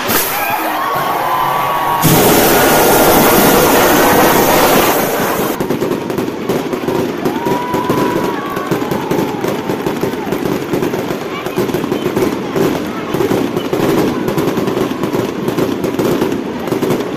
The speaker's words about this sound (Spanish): ese cañón pirata y el fuego pues dieron paso a un chupinazo que, bueno, sonó así o más todavía